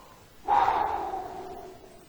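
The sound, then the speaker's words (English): A single deep breath: a breathy, noisy rush that starts abruptly, stays fairly loud for a moment, then slowly tapers off, with no talk. “I just need to, as Galen would say, take a breath and settle down a little bit.”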